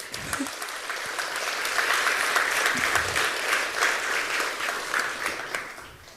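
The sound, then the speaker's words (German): Audience applause for a performer coming onto the stage at a live event: dense, steady clapping that holds for the whole stretch at a fairly even loudness and swells a little in the middle, with no clear talk over it. “Einen großen Applaus bitte für Jenny.”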